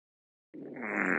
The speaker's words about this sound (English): That was that a fart?